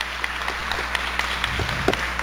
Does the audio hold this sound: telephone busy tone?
no